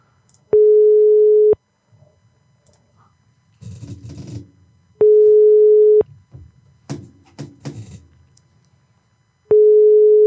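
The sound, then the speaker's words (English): Ringback tone on an outgoing phone call to a shop: three steady, mid-pitched, loud tones about a second long, spaced by several-second pauses filled with faint rustling and handling noise. “All right, here we go. I'm going to call Hasty Market.”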